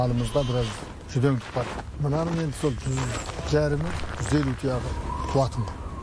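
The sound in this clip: A flock of sheep bleats on a winter pasture in the desert. Many overlapping, wavering bleats follow one another continuously over a low, steady background.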